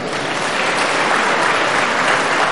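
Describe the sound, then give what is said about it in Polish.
Dense, steady applause greets welcomed guests, representatives of foreign countries. The clapping is continuous and fairly loud, a thick wash of many hands that holds evenly from start to finish. “Ogromne klaski, oklaski.”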